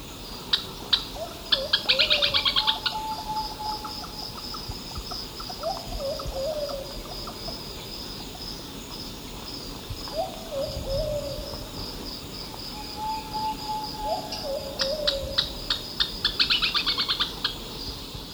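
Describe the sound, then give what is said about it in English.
Calls of a Plumbeous Pigeon and a Thrush-like Antpitta. A few short, falling mid-pitched notes repeat at intervals, and bursts of high, rapid chirping rise above a steady background hum. “Two, with Plumbeous Pigeon and Thrush-like Ant Pitta.”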